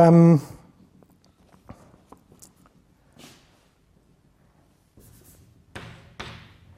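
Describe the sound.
A pen scratches out mathematical notation by hand in a few faint, short bursts of scraping strokes with quiet pauses between them, after a brief voice at the start.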